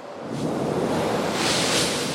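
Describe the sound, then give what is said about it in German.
Gust of wind sweeping through a large house, a rushing whoosh that builds in quickly, holds, then swells brighter and stronger a second time before easing slightly. “Plötzlich fegte ein Windstoß durch das große Haus.”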